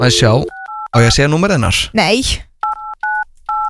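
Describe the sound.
Touch-tone telephone keys beep as a call is dialed: a few short, evenly pitched dual-tone beeps. Voices talk just before and between the first and later tones.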